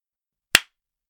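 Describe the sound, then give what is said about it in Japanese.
A single sharp hand clap rings out alone in silence, a crisp, bright smack that fades quickly. “今から私が何度か手を叩きます。こんな風に。”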